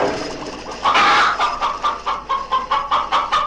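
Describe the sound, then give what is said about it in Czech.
Chickens cluck in a hen house, a rapid series of many sharp, agitated clucks in an uneven rhythm that grows louder after a quieter start. “A tam je kurník!”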